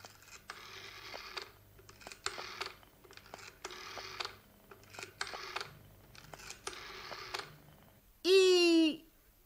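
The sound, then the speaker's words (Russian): A telephone receiver is lifted and a number dialled, giving several groups of rapid clicking, whirring bursts, followed by a loud warbling electronic tone. “Снимаете трубку, набираете номер.”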